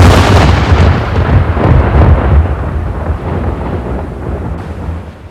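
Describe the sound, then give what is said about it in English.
A full cannon broadside fired from a ship's port side at a sea serpent: a loud, deep, rolling boom that stays dense for several seconds before slowly fading. No separate shots stand out. “The ship brought its port to face the beast and blasted it with a full broadside.”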